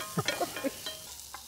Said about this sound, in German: Also mit dem Rühren ist gut, nur du willst ja Röstaromen. Und dann, wenn du rührst, gibt es keine Röstaromen. Deshalb lassen wir es jetzt etwas rösten.